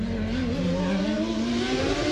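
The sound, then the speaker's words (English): Formula One race car engines at the Australian Grand Prix on a suburban Adelaide circuit, with Williams cars leading, produce a loud, continuous high-pitched whine whose harmonics climb gently, with no speech. “This is when Adelaide takes the reins on the Australian Grand Prix in the depths of suburbia.”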